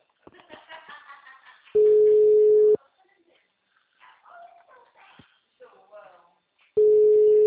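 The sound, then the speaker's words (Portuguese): A telephone busy signal sounds as a steady, low-pitched tone in long bursts, alternating with people talking in between. “Gente, tem uma ligação, tá? O número está ocupado.”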